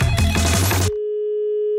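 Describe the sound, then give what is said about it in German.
A telephone tone sounds on a call placed from a radio studio. A short burst of music comes first, then one steady, loud, unbroken tone holds for almost a second and cuts off. “Vorher versuchen wir mal, den Ingo Arndt zu erreichen. Das Radio PSR sinnlos Telefon.”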